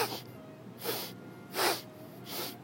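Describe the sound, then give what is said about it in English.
Sharp snorts of air drawn through the nose during a breathing-paced leg exercise, four faint, evenly spaced hissing bursts with quiet gaps between them and no talk. “inhale, exhale, kind of like you're snorting a drug, but you're just snorting the air.”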